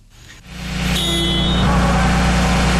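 A heavy vehicle's engine starts at a heavy-vehicle maintenance skills competition, catching after a brief crank and settling into a loud, steady low rumble that holds without pause.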